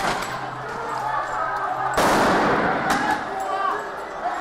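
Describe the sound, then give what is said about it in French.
A police dispersal grenade explodes at a chaotic street protest. A sudden sharp bang cuts through the crowd noise about halfway through, over a constant wash of shouting voices and scattered cracks. “Bombe de désencerclement.”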